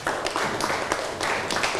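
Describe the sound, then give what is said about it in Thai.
Classroom applause from students clapping for a classmate who has just answered. A few hands clap in short, uneven bursts, with distinct sharp claps standing out rather than one smooth roar. “นั่งลงได้ครับปรบมือให้กับเพื่อนหน่อยครับ”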